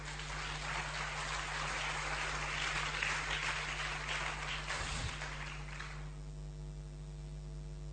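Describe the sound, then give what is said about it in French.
An audience applauds to acclaim the Lord in a French-language church service, a dense, even rush of clapping over a constant low electrical hum, dying away near the end while the hum remains. “Si tu as compris, acclame le Seigneur.”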